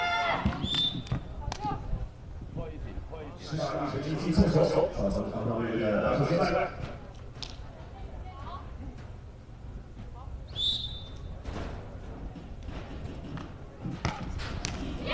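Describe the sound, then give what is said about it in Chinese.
Table tennis rally during a match: a scattered series of crisp ball taps and bounces as the ball is served and struck, heard beneath continuous commentary voices. “发球还是比较稳健啊”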